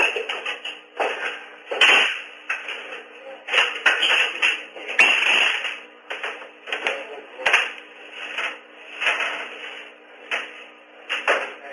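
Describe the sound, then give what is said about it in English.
Heavy footsteps of someone walking out, a steady run of loud, uneven thuds and taps repeating throughout without voices. “He walked out, closed the door. He's walking out. Those are pretty heavy footsteps”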